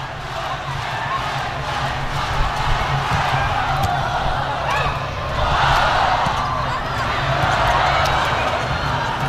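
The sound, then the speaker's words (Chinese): Volleyball served and struck during a match involving the Shanghai team: a few sharp ball impacts cut through a loud, steady arena crowd roar that swells with cheering midway. “现在来看一下沃伦科娃的发球”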